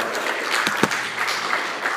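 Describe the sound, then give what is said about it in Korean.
Congregation applause during a church service celebrating the birth of Jesus, a dense, steady wash of many hands clapping with a few sharper claps standing out, lasting about two seconds. “박수로 한번 하나님 앞에 영광 돌리겠습니다.”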